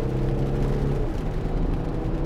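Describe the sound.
A BMW car drives past with a loud, steady engine drone whose tones drop in pitch about midway through.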